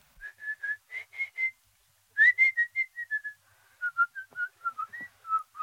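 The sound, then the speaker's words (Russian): A person whistles a tune of many short, clear notes, stops briefly, then continues with a longer run whose pitch gently falls and shifts. “Кто хочет свистать, тот может для этого на конюшню идти.”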